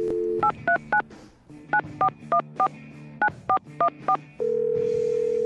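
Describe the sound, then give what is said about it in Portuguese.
Touch-tone telephone dialing of a phone number: eleven short beeps in quick groups, with a steady tone just before the first key and another steady tone starting right after the last one. “Vamos lá, então. Discando aqui.”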